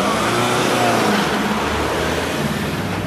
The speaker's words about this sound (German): Der schwarze BMW darf weiterfahren, rollt motorröhrend die 300 Meter bis zum Goldenen Löwen.